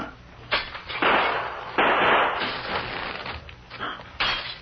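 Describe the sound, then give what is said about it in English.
A gunshot and a window being smashed in a radio drama scene: a series of sharp, loud bursts and crashing impacts with brief quieter gaps between them. “As soon as he fires, you raise the shade and I'll smash this window.”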